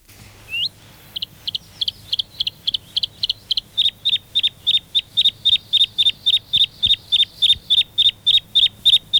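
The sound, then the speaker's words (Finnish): Bluethroat song from Lapland: a short rising whistle, then a long run of many short, high notes repeated at an even, rapid beat, steady and fairly strong, with no voices. “Lapin lintuja. Sinirinta.”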